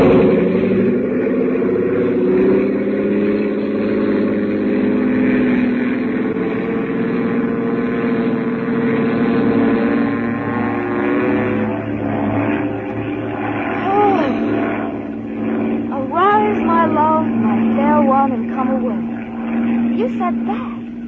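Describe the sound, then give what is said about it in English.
Aircraft engine roaring through a very fast takeoff, a loud continuous drone with layered humming tones that holds steady and swells slightly as it goes. “This is going to be the fastest takeoff in the books. Here we go.”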